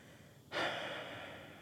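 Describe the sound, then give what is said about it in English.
A person takes one deep breath, a soft, airy rush that begins abruptly and then trails off slowly. It is quiet, with no other sound around it. “But then we can just breathe. Do that with me.”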